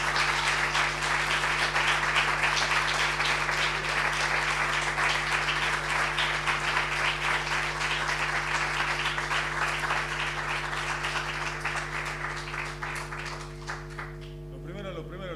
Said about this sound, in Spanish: les quiero pedir un fuerte aplauso para quien voy a presentar por último